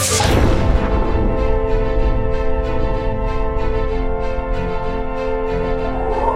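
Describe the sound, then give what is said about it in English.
A sci-fi neuroblaster weapon fires aboard a starship under attack: a loud opening blast, then many rapid, evenly spaced bursts of energy over a steady humming drone. “The neuroblaster is firing.”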